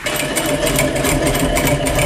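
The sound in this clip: A sewing machine runs at speed stitching a straight seam in fabric, giving a loud, continuous whirring motor drone with a fast, even needle rattle throughout.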